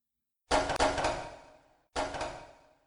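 Heavy clanks of a large gate swinging open, a quick double knock followed a moment later by a third, each with a ringing decay.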